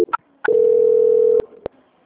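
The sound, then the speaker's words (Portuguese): A steady telephone tone plays while a call is being transferred, holding one low pitch for about a second. A couple of short blips come before it and two sharp clicks follow, with no talking. “Só mais um momento, eu vou transferir a ligação.”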